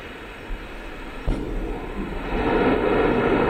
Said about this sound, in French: Allumage Vulcan. Allumage EAP, décollage.